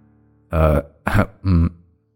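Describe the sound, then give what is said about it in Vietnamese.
A man clears his throat in three short, gravelly rasps, loud and alone, with silence after. “Thầy Tư Mập hắng giọng”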